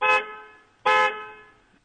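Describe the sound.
Two loud car horn blasts from a vehicle with two horns. Each is a bright, steady tone that sounds alone, with a short first honk and a second honk close after it, both fading away.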